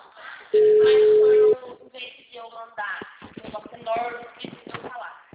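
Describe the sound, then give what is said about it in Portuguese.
Telephone tone on an unanswered call: a single loud, steady tone lasting about a second, followed by a voice speaking. “O número chamado não está atendendo.”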